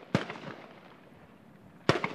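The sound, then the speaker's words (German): Gunfire from UN soldiers firing volleys into the air in the no-man's-land of an abandoned airport on the edge of Nicosia: two sharp, loud reports about two seconds apart, separated by a low rumbling background. “Eine andere Ecke von Nikosia und von Stille keine Spur. Fast täglich feuern die UN-Soldaten im Niemandsland des verlassenen Flughafens am Rande der Stadt”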